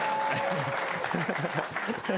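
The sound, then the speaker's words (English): Audience applause at a live voice-assistant software demo, a moderate wash of clapping with a presenter talking over it. “Come on, give yourself a big round of applause.”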